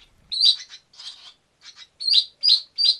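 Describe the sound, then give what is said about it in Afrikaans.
A European barn swallow calls in a series of high, thin chirps and twitters with short gaps, the last three sharp notes evenly spaced and fairly loud. “Die Europese swaal is nie regtig bekend daarvoor om te sing nie, maar hy sal net sing om sy area te beskerm of om 'n maat te soek, en hy roep klink so.”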